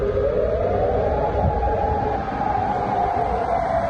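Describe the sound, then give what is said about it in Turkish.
Air raid sirens sounding during missile and drone attacks: a loud, sustained wailing tone holds steady throughout, with only a slight drift in pitch and no pauses. “Sirenler çaldı.”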